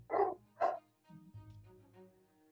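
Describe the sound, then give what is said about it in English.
A dog barks in a theater: two sharp, loud barks, then several softer, lower, drawn-out whimpering tones. “Someone let a dog in the theater.”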